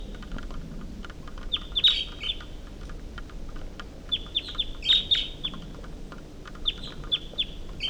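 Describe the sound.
A wild bird calls in a series of high, bright chirps, brief and sharp, arriving in a few clustered bursts with short pauses between, clear above a faint, steady background hush.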